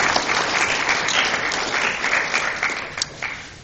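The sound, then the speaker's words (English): Audience applause welcoming a speaker, a dense, steady clatter of many hands clapping that holds throughout and tapers slightly at the end. “let's give a welcome hand to Armin Moss”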